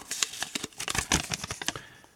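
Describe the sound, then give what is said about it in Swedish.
Paper lottery entry slips are poured into a jar, mixed and drawn, making a dense flurry of crisp rustling and crinkling with many quick, uneven papery bursts that thin out toward the end. “Så nu häller vi ner de som har alla rätt i en burk med de som inte hade det och blandar. Och drar.”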